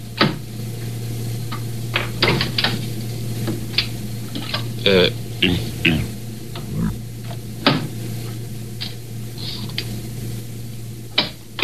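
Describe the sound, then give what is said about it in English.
Audio tape rewinding on a tape machine during tape editing: scattered sharp clicks and knocks over a steady low hum, with brief garbled, chattering bursts between them. “And that was me rewinding.”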